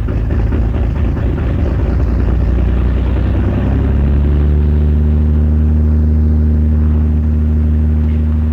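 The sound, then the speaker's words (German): A Puma helicopter takes off on a surveillance flight over the North Sea, beginning with a loud, steady low rumble. Midway through, it settles into sustained, droning engine and rotor tones that hold evenly to the end. “Ein Hubschrauber des Typs Puma startet zu 6 Beobachtungsflügen in der Woche.”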